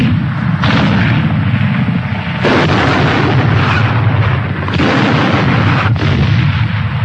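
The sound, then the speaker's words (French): Artillery shelling the city defences of Stalingrad: a dense, loud, continuous roar of blasts and deep rumble with a few sharper surges, and no voices. “L'artillerie pilonne les défenses de la ville.”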